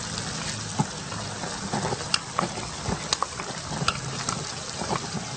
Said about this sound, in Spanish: Mezclamos bien, revolvemos un poco y le echamos el choclo.